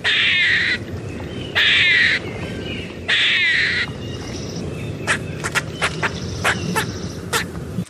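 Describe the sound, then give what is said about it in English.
An eastern gray squirrel on the Olympic Peninsula calls with three harsh, raspy barks spaced about a second apart, followed by a run of short, sharp chucks and clicks. “I have hoped that this animal had not made it to the Olympic Peninsula, but alas, it is the eastern gray squirrel.”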